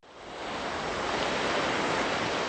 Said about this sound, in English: Thick black waves roll up onto the beach in Beirut, splashing against sand that's been stained by a huge oil spill.